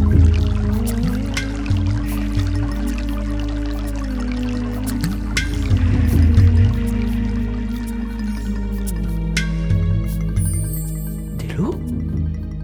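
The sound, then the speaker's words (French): Water flowing and pouring in a steady, continuous trickle over a bed of soft, sustained tonal music that holds throughout. “De l'eau, il coule.”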